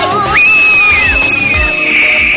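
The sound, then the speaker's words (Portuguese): A man shouting a shrill eagle cry at a live DJ sound-system party, one long high scream that leaps sharply upward early on, then holds a steady piercing pitch over a thumping bass beat. “Ele gosta do grito do águia. Grita, meu águia, bem forte aí, papai.”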